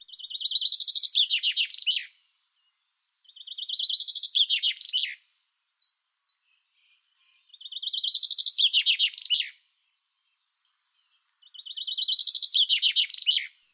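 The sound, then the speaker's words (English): Chaffinch song: four bright, rapid verses of about two seconds each, separated by short silences. Each trill runs briskly and finishes in a flourish, with no voices. “Let's hear a verse of chaffinch song.”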